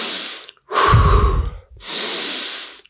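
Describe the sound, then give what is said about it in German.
Deep breathing, drawn in through the nose and blown out through the mouth: three long, loud, airy breaths separated by brief pauses, the middle one fuller and lower, with no talking. “Wir atmen zunächst mal tief ein und aus für ungefähr 2 Minuten oder man kann auch sagen 25 bis 30 Atemzüge. Das hört sich ungefähr so an.”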